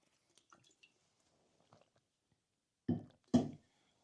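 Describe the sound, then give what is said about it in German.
A person takes a drink: a few faint clicks and small noises, then two short, wet gulping swallows close together, with no talk. “Ich muss noch mal was trinken.”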